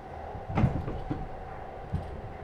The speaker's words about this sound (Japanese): それじゃドアを開けてご案内です。